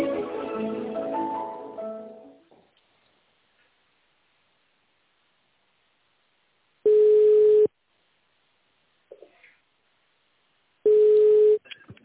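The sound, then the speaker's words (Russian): Telephone tone dialing of an extension number: two separate electronic keypad beeps, each under a second long, separated by several seconds of near silence with a faint blip in between. “Если знаете добавочный номер сотрудника, то наберите его в тоновом режиме.”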